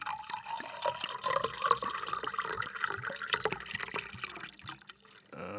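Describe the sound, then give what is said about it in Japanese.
Fukushima sake is poured from a 720 ml bottle, giving a steady gurgling pour full of rapid bubbling pulses, with a liquid tone that climbs in pitch during the first part. “真正銘の福島の日本酒を注ぐ音をお聞きください。”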